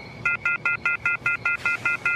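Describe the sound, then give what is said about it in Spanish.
Rapid electronic two-tone beeping from a strange phone alert call received in a hideout in New York: ten short, evenly spaced bursts repeat at a steady, quick rhythm at moderate loudness, with no voices. “Luke Cage, del equipo de los Vengadores Renegados, contesta una extraña llamada de alerta de Spider-Woman”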